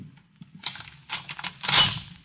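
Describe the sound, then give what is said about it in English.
A hotel room door being unlocked and opened: a few light scattered clicks, then louder metallic rattles and a bumping burst, with the final clatter loudest. “All right, the door's open.”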